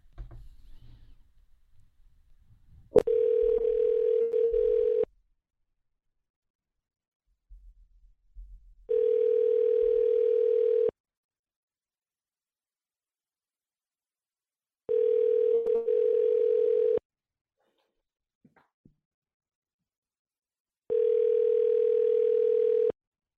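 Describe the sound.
Telephone dial tone on a call to another number: a steady, mid-pitched tone in four bursts of about two seconds each, separated by longer silences, after a brief click.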